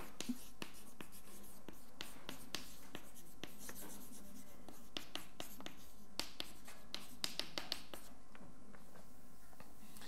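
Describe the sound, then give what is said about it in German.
A pen scratches out a handwritten heading during a physics lecture, with many quiet, short strokes and ticks in an uneven rhythm. The writing is faint and there is no talk. “schreibe es jetzt nochmal ordentlich auf”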